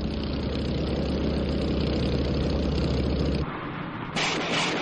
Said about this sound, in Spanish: De repente, ven a un motorista dirigiéndose hacia ellos, seguido de las filas del Das Reich.